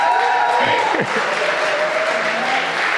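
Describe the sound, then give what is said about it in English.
A church audience applauds to welcome a speaker to the stage. The clapping is dense and steady throughout, with a voice heard over it. “I'd love you to put your hands together and encourage and welcome Anthony to the stage.”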